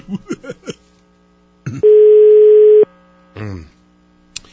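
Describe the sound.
A single long, steady telephone ringback tone sounds on an outgoing call, loud and unbroken for about a second. Brief bursts of voices come before and after it.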